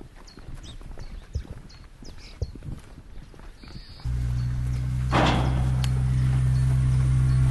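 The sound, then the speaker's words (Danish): Hooves of Icelandic horses clip-clop in light, irregular knocks for a few seconds, then a steady low hum takes over. “Det er islandske heste.”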